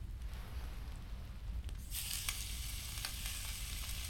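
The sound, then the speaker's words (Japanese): Dried meat sizzling as it fries in a skillet with a little oil. The hiss is steady and fairly faint, grows brighter about halfway through, and continues with no voices. “スキレットに油を少し引いて、その上に干し肉を、”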